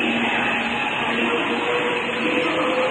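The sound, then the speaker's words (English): A train pulling away makes a continuous, loud rumble with faint, steady whining tones layered over it, and no voices are present. “Another train pulls away.”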